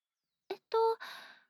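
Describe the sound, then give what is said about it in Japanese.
A person blows on a hot drink to cool it, voicing the puffs. A short breathy puff comes first, then a brief voiced, tone-like blow, and finally a longer, softer exhale that trails off. “飲むときはふうふうをして冷ました方がいいかもです。”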